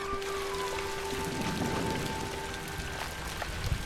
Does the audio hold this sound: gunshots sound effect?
no